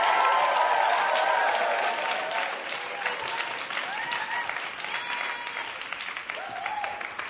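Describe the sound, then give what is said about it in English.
A church audience applauds in a dense, sustained burst of clapping that stays loud and steady, with a few voices calling out over it. “So let's put our hands together. Let's welcome back up Pastor Benjamin Robinson.”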